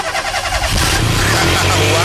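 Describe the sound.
A car's motor is started with the bonnet open: a brief rhythmic cranking catches and swells into a loud, steady rumbling engine.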